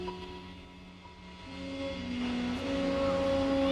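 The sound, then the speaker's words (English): Airport ambience: a low, steady rumble with engine-like hums whose tones shift upward partway through, growing slightly louder, with no voices. “Now, an airport.”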